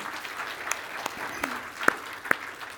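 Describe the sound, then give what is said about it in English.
Congregation applause during a church sermon: sparse, scattered claps over a soft steady hiss, with a few sharper, louder hand claps standing out near the end. “we ought to clap for that”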